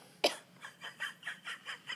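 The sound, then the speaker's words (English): Coughing from a person in a conversation, one sharp bark followed by a rapid, rhythmic run of smaller hacking bursts, all fairly faint. “it's hard to talk while you're coughing”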